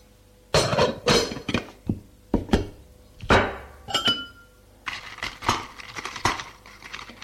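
Glass clinking as sugar is stirred into a glass of water at a bedside table: a few separate sharp taps, then a longer run of quick, light clinks, with no talk.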